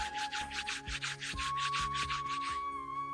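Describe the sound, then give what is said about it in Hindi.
Hands rubbing together during a guided exercise for children at a live event: many soft brushing strokes in a steady back-and-forth rhythm, with a faint steady tone underneath. “अब धीरे से अपने दोनों हाथों को रगड़िए,”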